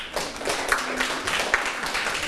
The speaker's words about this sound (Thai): 11ถึง15บรรทัดกำลังพอดีนะครับปรบมือให้เพื่อน